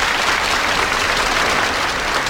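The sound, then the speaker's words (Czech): Audience applause: dense, steady clapping from many hands that holds at an even loud level throughout, with no voices. “Přivítejte potleskem pana Waltera Gropia.”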